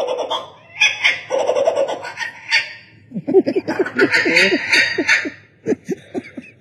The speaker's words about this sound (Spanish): ¿Eso es un ave? Como changuito. No. Es un ave de Sudamérica.